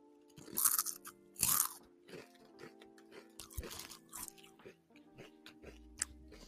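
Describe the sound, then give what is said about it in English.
Crunchy herb-flavoured Lay's potato chips being chewed, with two loud, sharp crunches early on followed by softer, irregular crunching and chewing. “These are good though, but I don't know what they taste like. It's like you can taste like the original Lay's, but it has something else in. I guess it's the herb that I'm eating”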